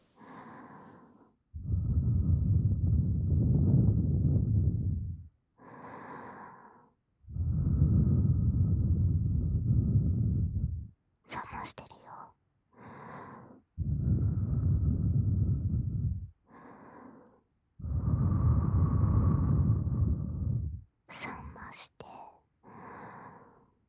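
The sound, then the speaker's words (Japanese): Long, breathy blows of air cool a hot piece of ear before tasting: four sustained puffs of about three seconds each, separated by shorter breaths and a few sharp clicks. “まずは、熱いお耳を、ふうふうして、冷まさなきゃ。”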